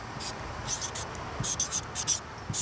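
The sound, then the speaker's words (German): Pen scratching on paper while a maths word problem is worked out: faint, quick, high-pitched scraping strokes in a few short bursts over a low hiss. “Im ersten Satz des Zweisatzes schreibe ich das hin, was ich weiß.”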